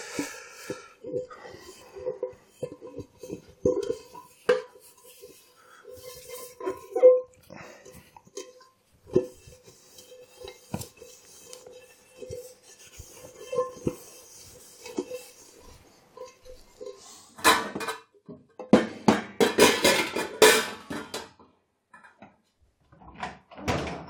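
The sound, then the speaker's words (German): A large cooking pot is dried by hand during dishwashing, with scattered knocks, clanks and rubbing handled in an irregular rhythm, and a busier, louder stretch of clattering near the end. “So, jetzt habe ich hier den großen Topf zum Abtrocknen.”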